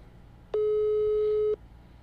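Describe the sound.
A telephone ringback tone plays while a call goes unanswered. It is one steady, evenly pitched tone lasting about a second, heard alone between quiet stretches.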